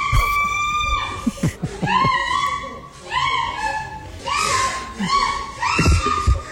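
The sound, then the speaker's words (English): A woman shrieks loudly during sex in repeated high, piercing cries, each a sustained wail that bends in pitch, arriving in a fairly regular rhythm with short gasping breaks between them. “She's shrieking.”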